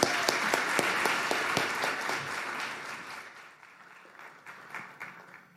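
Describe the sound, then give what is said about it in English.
A church audience applauds to welcome a preacher at an evening service: a full, even wash of many hands clapping that gradually softens toward the end. “let's put our hands together to welcome Ferlin McGaskey to preach tonight”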